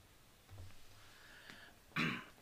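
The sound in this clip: Throat clearing in two bursts: a soft, low rasp, then a sharper, louder one near the end, with no talking.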